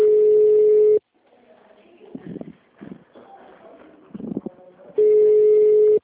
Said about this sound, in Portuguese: Tá chamando, tá atendendo.